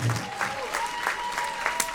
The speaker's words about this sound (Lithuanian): pasitikim plojimais.